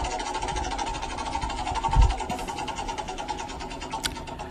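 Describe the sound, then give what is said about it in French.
A prize wheel spins at a giveaway draw, giving off a steady, rapid mechanical rattling whir that runs through the whole stretch with little change in level. “va lancer la roue”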